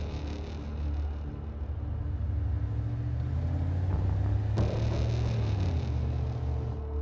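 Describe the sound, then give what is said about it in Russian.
A car drives along a city street at night with a low, steady engine rumble and a faint humming drone. One sharp crack cuts through partway, and the rumble then continues evenly to the end. “Вид сверху на улицу, по которой едет машина.”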